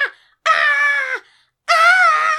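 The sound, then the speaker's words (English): A voice imitates the scream of a terrified kid. A brief falling cry is followed by two long, loud, high-pitched wails with a short silent gap between them. “And runs through the graveyard, full on Home Alone screaming, right his way through the graveyard.”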